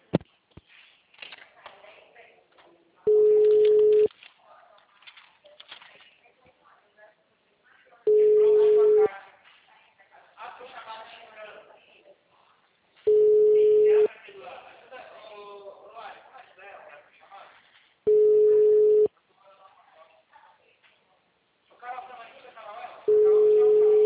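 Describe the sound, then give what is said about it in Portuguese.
Telephone ringback tones on a call being transferred to an office extension: five steady, mid-pitched tones of about one second each recur roughly every five seconds, with voices heard in the gaps between them. “Ah, eu vou transferir você no ramal dele.”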